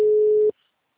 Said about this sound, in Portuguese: caiu a ligação